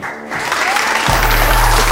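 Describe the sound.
A talk-show studio audience applauds to welcome guest Olympia Lapointe. A voice is heard at first, then dense, loud clapping swells in about halfway through and holds steady to the end.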